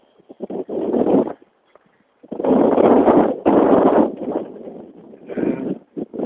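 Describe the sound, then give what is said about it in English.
A chilly northwest wind blows outdoors on a mild day near 70 degrees, gusting in rough, rumbling bursts separated by brief lulls. “It's quite a chilly wind. It's 68 degrees, almost 70 degrees, but that wind is got a little bite to it.”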